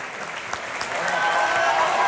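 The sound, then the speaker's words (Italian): Opera audience applause fills a theatre in Florence, a dense, even wash of clapping that swells slightly in the second half and carries on steadily without a break. “e adesso invece molti applausi per Sesto Pompeo, Niccolò Balducci”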